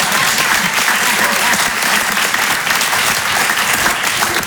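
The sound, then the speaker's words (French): An audience claps together in unison, a dense, steady wash of applause that holds at an even loudness for the whole stretch with no voices standing out. “Juste après, oui, vous pouvez applaudir, mais tous en même temps, voilà.”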